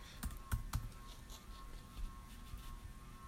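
Typing on a computer keyboard while looking up a website, a few sharp key clicks near the start followed by lighter, scattered tapping, fairly faint and without speech.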